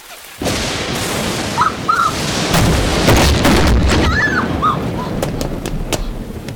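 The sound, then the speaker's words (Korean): A lightning strike blasts a door off: the sound begins with a sudden loud boom, then a sustained roaring crackle follows, broken by several sharp cracks. “번개에 맞아 문짝이 날아가고 문 앞을 지키던 전문업체 요원들까지 모두 번개를 맞고 기절해버린 상황.”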